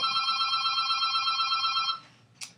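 A telephone rings with an incoming call, a bright warbling electronic ring lasting about two seconds, followed by a short click.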